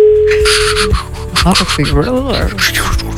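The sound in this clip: A telephone ringback tone sounds while a call is being placed. It is a single steady, mid-pitched tone lasting about a second, and then people start talking over it.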